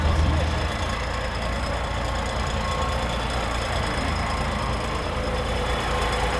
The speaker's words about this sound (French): Alors là on est sur un franchissement c'est un gros véhicule, il est long. Voilà, donc on se retrouve sur la zone 14 avec l'entrée d'un 8-8 Mercedes Actros.